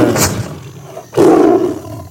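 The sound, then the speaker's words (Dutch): A tiger roars: a fainter rumbling growl is followed by one loud, deep, drawn-out roar lasting about a second. “Hoe brul die tier nou in my oore?”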